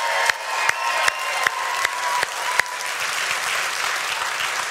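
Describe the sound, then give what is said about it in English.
A church audience applauds in warm welcome, with dense, steady clapping throughout and a few sharp knocks standing out at regular intervals. “could you give She Saw Community Bible Church a warm Grace Point welcome?”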